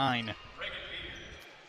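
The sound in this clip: A basketball is dribbled before a free throw at a women's college game, Oregon State against Seattle University. Low thuds of the bounce follow a brief voice and sound over a soft, steady background.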